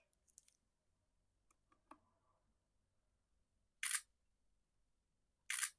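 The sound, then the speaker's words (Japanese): Two sharp camera shutter clicks sound as photos are taken, about two seconds apart. A few faint small clicks come earlier in an otherwise quiet background. “よし、写真も撮りました。”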